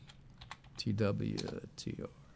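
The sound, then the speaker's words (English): Computer keyboard keys clack in a quick, uneven run as a stock symbol, TWTR, is typed into a charting website, with a voice briefly heard among the faint taps. “So type in this where the symbol goes.”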